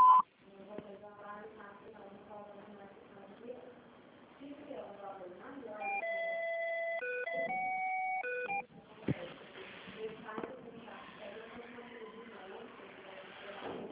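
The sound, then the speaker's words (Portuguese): A short run of steady electronic signal tones from an automated phone service, stepping between pitches over a few seconds. A recorded voice speaks before and after the tones. “Após o sinal, digite normal ou aguarde.”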